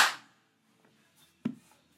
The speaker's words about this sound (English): I always enjoy making that clap. It helps to get everything synced up, you know.